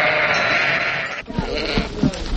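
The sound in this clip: Sheep and lambs bleat on a farm where Gala sheep are kept, with one long wavering bleat at the start and then several shorter, clipped bleats over a steady background hiss.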